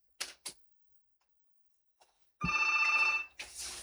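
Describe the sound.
A telephone rings for an incoming call with a single bright, trilling bell burst of just under a second, after two sharp clicks and followed by a hissing noise.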